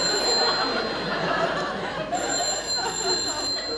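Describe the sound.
A telephone bell rings steadily over a dense, noisy background, with a brief pause roughly midway before the ringing resumes.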